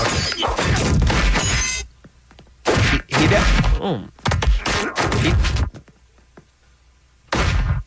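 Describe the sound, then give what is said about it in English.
Punches in a one-sided fistfight: loud, sharp thwacking impacts arrive in several bursts, separated by short stretches of near silence. “Still fighting, Bean. Okay, sorry. He's not fighting back. There's just one guy. That's quite a punch.”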